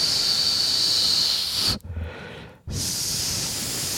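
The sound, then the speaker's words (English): Air hissing through gaps in a person's teeth: a long, bright, steady hiss, a brief pause, then the hiss resumes and holds at the same level. “That's the sound of my many gaps in my teeth.”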